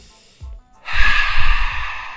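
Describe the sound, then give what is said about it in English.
A group breathes out together, a brief breath sound followed by a long, loud, hissing exhale that slowly tapers off. “that's us breathing them out. That's you exhaling”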